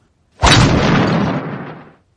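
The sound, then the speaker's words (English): A hammer knocks a nail into a wall and cracks it with a single loud, sudden crash. The noisy burst holds and then fades over about a second and a half, with nothing else around it. “Daddy Pig is going to knock the nail into the wall.”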